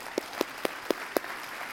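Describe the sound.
A church audience applauds to welcome a guest, a soft, even wash of clapping with a few sharp, louder claps standing out at regular intervals.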